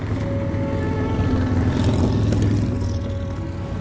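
A motorcycle being ridden, its engine a loud, continuous rumble with a buzzing whine that holds steady without a break.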